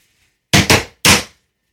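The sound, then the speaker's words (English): A rimshot sting played as a joke punchline: two quick, sharp drum hits, then a single longer crash that rings out briefly. It is heard alone. “That was my rim shot.”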